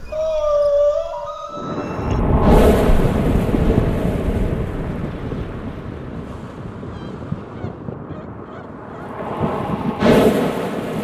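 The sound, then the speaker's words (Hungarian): Plastic waste rustled to imitate the sea, a loud rolling surf-like roar that swells, eases off and surges again, preceded by a brief tonal sound. “Amit hallottál, az nem tenger volt, hanem műanyag szemét.”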